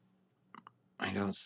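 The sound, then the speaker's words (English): Two quick, light computer mouse clicks in close succession are followed by a voice starting to speak. “let me just click on one more here. Maybe it won't start a video on here.”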